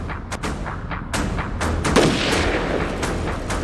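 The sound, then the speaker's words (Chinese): Gunfire from a sniper position facing an enemy machine gun: many sharp, loud reports, some with a high ringing whine, building into a dense, booming clatter with no voices. “就在敌人一个点射结束的瞬间，张桃芳果断出枪射击。”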